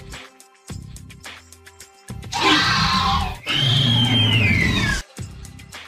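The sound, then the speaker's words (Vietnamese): A shrill, agonized scream rings out in two long, loud bursts, the second sliding downward in pitch as it ends, following a stretch of quieter low tones. “Tiếng kêu chói tai đột nhiên vang lên đầy thảm thiết.”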